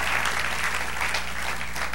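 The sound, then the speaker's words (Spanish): Dense, steady applause from an audience at a church service, clapping evenly for the whole two seconds with a faint low hum underneath. “Dale un aplauso al Señor, sí.”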